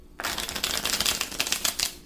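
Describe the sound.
Tarot cards are shuffled before an eight-card reading: a rapid, dense crackling flutter of riffling cards runs for about two seconds at a fairly even level, with no talk.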